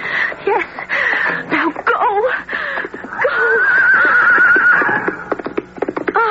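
Horse neighing near a pen gate while being ridden bareback: loud, quavering whinnies repeat over several seconds, including one long wavering neigh in the middle, with scattered sharp clicks between the calls.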